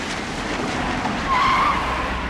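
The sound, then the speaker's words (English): A veterinarian's classic car pulls up to a school. A low engine rumble runs throughout, a brief tire squeal rises in the middle, and the sound grows slightly louder toward the end. “Dr. Horvath's classic car pulls up.”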